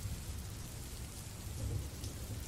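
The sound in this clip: Rain falls steadily with thunder rumbling low underneath, a soft continuous hiss over a deep murmur that swells slightly near the end.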